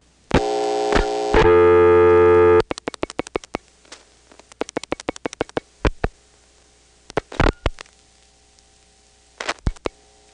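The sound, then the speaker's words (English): Rotary dialing pulses clicking through a telephone first selector switch on a payphone, sharp clicks in quick bursts with short gaps between digits, after loud steady tones at the start. “That'll put us on the first selector with nothing dialed, so we'll then rotary dial a 1. And if it seems to go into a trunk, I will rotary dial the same number I called before, which was my panel line in New York City.”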